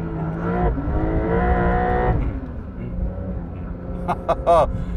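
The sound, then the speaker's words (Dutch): A Porsche 911 Dakar engine held at high revs against its rev limiter gives a loud, steady, buzzing roar for about two seconds, then drops away. Brief voice sounds follow near the end. “Want ik was niet handmatig aan het schakelen, maar ik bleef even zeg maar, in die toerenbegrenzer even hakken.”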